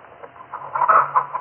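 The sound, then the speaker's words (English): Chickens clucking on a farm kept with ducks and pigs: a run of soft, overlapping clucks that grows louder and busier in the second half, with a faint low hum underneath. “You see my chickens and ducks”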